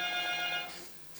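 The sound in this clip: An ordinary landline telephone rings faintly with one short burst of bright electronic tone, which fades out after about half a second and leaves near silence.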